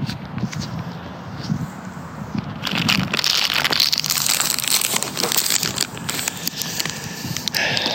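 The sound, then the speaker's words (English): A pack of Skybox trading cards being opened, with continuous crinkling and crackling of the foil wrapper, growing louder and busier partway through as the pack is torn and handled. “Time to open the card.”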